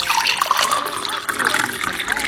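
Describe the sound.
Drinking water being poured so a younger child can take medicine: a continuous splashing, gurgling stream of liquid that runs steadily throughout.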